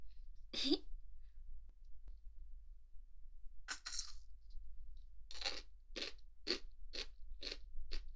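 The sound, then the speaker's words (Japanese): Crunching of takuan, pickled daikon radish topped with bonito flakes, being eaten: a faint single bite and a second crunch, then a steady run of rhythmic, crisp chews near the end, alone against near silence. “ほらほら、たくあんさんも食べてって言ってますよ。さあさあ食べましょう。たくあんの黄色は幸せの色ですよ。”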